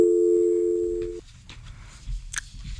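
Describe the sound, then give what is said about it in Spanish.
Steady telephone dial tone after a call is cut off, a single loud, level hum holding for just over a second before stopping abruptly, leaving faint low noise and a brief click. “Se nos cortó al parecer la llamada con el diputado Hamler.”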